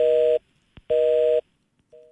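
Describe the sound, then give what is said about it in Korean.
Telephone busy tone after a call was abruptly cut off: two steady, evenly pitched beeps with a short click in the gap between them, then a third, fainter beep beginning at the end. “지금 갑자기 끊어졌어요. 네. 목사님께서 전화를 뚝 끊으셨습니다.”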